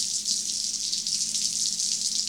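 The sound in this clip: Cold water runs in a bathroom, a steady, faint, hissing flow that holds even throughout, with no voices over it.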